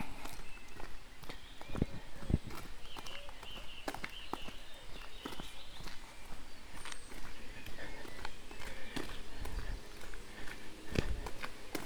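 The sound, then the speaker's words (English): Footsteps crossing a stream: a run of uneven steps and sharp knocks over a constant noisy background, with a few louder impacts standing out. “Just going to walk over Roncombe Stream.”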